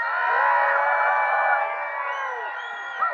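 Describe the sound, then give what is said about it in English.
An audience cheers as loud as possible during a church practice, a massed shout of many voices that holds strong and steady, then thins and tapers near the end. “and then you guys are going to cheer as loud as possible”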